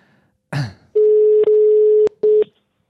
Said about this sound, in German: Oh ja, wir rufen sie nochmal an. Ich ruf sofort an.